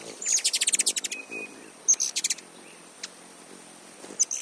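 A hummingbird sings and chirps in quick bursts of thin, high-pitched squeaky notes, a rapid stuttering series followed by shorter isolated chirps, with no other sounds.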